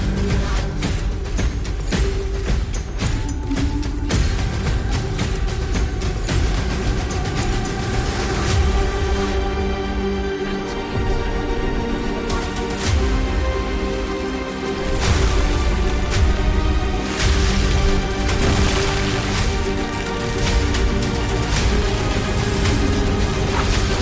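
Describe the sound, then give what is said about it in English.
Gameplay trailer for a MOBA video game with a dense, loud soundtrack. Music is layered with impacts, whooshes and effects that run without a break, and no one talks. “We got a quick gameplay trailer to show y'all. Cam, fire it up.”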